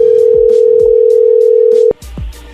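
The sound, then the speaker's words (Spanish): A telephone tone during an unanswered call: one steady, unbroken hum that stops abruptly just before two seconds, followed by a few low thumps. “vamos a marcarle otra vez”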